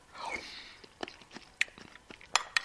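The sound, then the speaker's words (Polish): Someone eating soup: soft mouth sounds and a few faint, bright clinks like a spoon on a bowl, all quiet and spaced irregularly. “Jem zupkę.”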